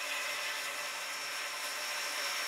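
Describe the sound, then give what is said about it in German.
Steady whirring hiss of a locomotive's air pump refilling compressed air for the brakes just after the engine halts at a buffer stop in Germany. It runs continuous and even throughout with no voices. “Kaum kommt unsere Lok vor dem Prellbock zum Stehen, und zwar ohne ihn zu berühren, füllt die Luftpumpe schon die Druckluft für das Bremssystem wieder auf.”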